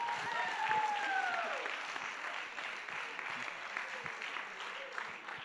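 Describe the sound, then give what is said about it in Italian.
An audience at a Sunday gathering claps, giving steady, dense applause. The clapping holds at an even, moderate level for about five seconds without a clear peak or ending. “vogliamo fare un applauso ad Antonio.”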